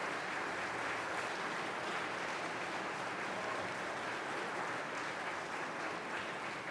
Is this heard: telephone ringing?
no